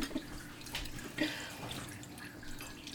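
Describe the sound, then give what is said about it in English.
Water splashes and drips during a quiet wash: a few soft splashes and drips over a low, steady watery background, with no talking. “I am doing a silent wash for you guys.”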